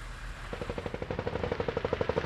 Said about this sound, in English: When we arrived, they were still firing on houses across on the Gaza side.